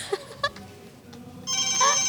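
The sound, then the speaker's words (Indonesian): A studio telephone starts ringing partway through, a bright, steady electronic ring tone that follows a few short clicks and low background noise. “Sudah dapat telepon.”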